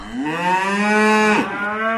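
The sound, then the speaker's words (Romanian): Cattle in a herd being driven along give one long, loud moo, a steady drawn-out lowing call that dips briefly near the end before carrying on to the close, with no voices. “Claus cel Mic, care își mâna din urmă cireada. Mubu! Cireada!”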